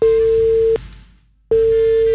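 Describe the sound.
A busy tone after a phone call disconnects during a radio call-in: a loud, steady single-pitched tone that sounds, cuts off into near silence, then returns, with no talk.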